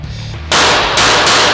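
Loud secondary-weapon gunfire from the Rainbow Six video game bursts in abruptly after a quiet start, several harsh rapid volleys following one another closely.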